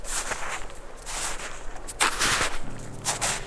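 Footsteps crunch across wet, sun-softened snow in a few irregular, moderately loud steps, each a short gritty burst over a low steady background hum.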